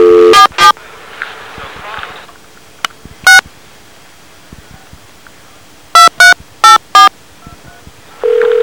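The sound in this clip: Telephone keypad tones as a radio station dials out to a call-in guest: several short two-tone beeps, a quick pair, a single one, then four in fast succession, ending in a steady held tone.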